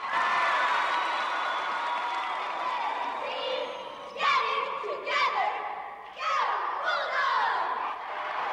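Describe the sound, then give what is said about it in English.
A crowd in a hall applauds and cheers, with steady clapping throughout and several loud whoops and shouts bursting out in the second half. “The cheerleaders jump up and down and lead the applause excitedly.”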